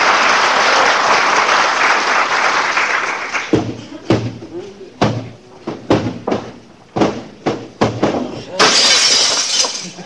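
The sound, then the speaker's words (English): A hall mirror slips from a hand and shatters in a long, loud crash of breaking glass, followed by a rapid series of sharp clinks and thuds as pieces hit the floor, then a final burst of broad noise. “I was just cleaning the mirror in the hall, kiddo. Slipped out of my hand.”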